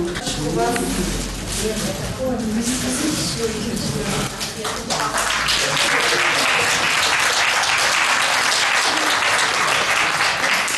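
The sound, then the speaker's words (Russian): An audience applauds the premiere of the film «Пути Господни». A voice speaks over the early part, then dense, steady clapping swells and carries on to the end. “Зрители тепло встретили новую премьеру фильма «Пути Господни».”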